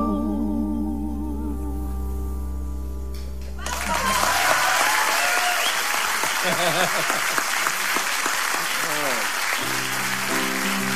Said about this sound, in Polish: Proszę Państwa, wielkie brawa należą się dlatego, że Frank po raz pierwszy, i co sam zaproponował, usiadł tutaj przed Wami.